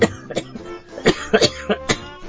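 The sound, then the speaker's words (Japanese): A person coughing and choking: a series of short, rough coughs in uneven bursts, with a few quick clusters and brief pauses between them. “むせてますな。 むせる。むせる。”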